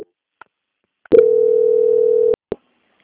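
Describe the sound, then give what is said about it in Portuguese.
A steady telephone transfer tone plays as a bank call is passed to quality control: one level, mid-pitched beep held for just over a second, with soft clicks on the line before it and a short click after. “peço que a senhora aguarde em linha que vou transferir o contato para o controle de qualidade, que dará continuidade à sua contratação. Transferência.”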